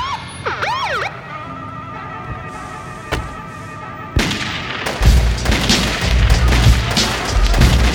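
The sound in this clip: Gunshots: two sharp, isolated cracks follow a siren that wails up and down, and then loud, dense music with heavy low bass takes over.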